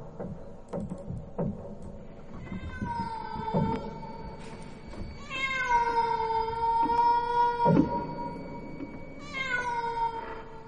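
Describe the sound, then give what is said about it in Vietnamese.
A cat meowing eerily at night outside the door on the porch: a few long, drawn-out, wavering wails, loud and tonal, with scattered soft thumps and clicks between them. “khi không nửa đêm nửa hôm lại có tiếng mèo kêu. Lão sợ lắm, nhưng cũng tò mò, có con mèo không biết ở đâu xuất hiện, cứ đứng ở ngoài hiên, kêu lên những tiếng ghê rợn thảm thiết.”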